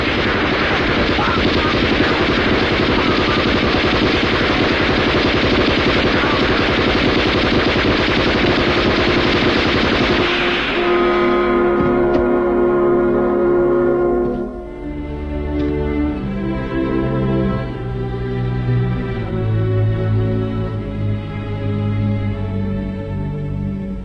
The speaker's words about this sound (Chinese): 开枪打吧！打击击，打击击！